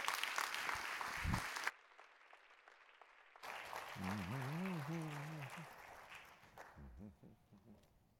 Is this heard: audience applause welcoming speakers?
yes